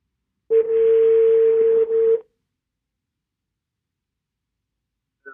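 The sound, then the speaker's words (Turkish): An outgoing telephone call rings with one steady, mid-pitched tone lasting under two seconds over a hissy line, followed by a long silence. “Bugün Barış'ı arıyorum.”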